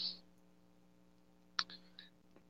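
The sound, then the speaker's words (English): Typing on a keyboard shows up as a few sparse, sharp clicks separated by quiet gaps, faint against a low steady hum. “Oh, he's typing it well.”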